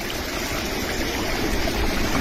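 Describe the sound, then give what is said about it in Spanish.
Rushing water from the San Bernardo creek overflowing in barrio Libertador, Cauca, a dense, steady roar that holds at an even loudness throughout with no breaks. “Ve, a esta hora en el barrio Libertador se nos está desbordando la quebrada San Bernardo.”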